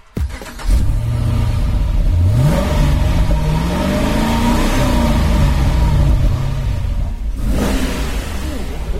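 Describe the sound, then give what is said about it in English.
A car engine revs hard, its droning pitch climbing through the middle and then easing back down. The loud, steady mechanical roar continues throughout before dipping slightly near the end. “Instead, we're going to finish with a different kind of music. Here's the sound of Richard's car once again.”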